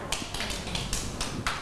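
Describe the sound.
Children clapping in a classroom for a classmate. A few crisp, evenly spaced claps follow one another in a steady rhythm, fairly faint and with no talk over them.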